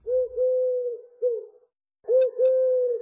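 A bird cooing in a garden: a few low, hollow, steady coos in two phrases separated by a short silence, fairly loud and heard alone.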